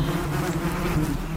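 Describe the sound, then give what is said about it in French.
An invasive Asian hornet, Vespa velutina, buzzes among honeybees at a hive, making a dense, continuous insect drone with a steady low hum throughout. “Voilà, c'est le son du frelon asiatique au milieu des abeilles.”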